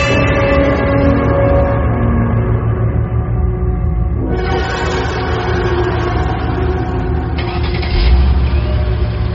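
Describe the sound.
A car's engine and road noise rumble loud and unbroken for the whole stretch, with a slight shift in tone partway through.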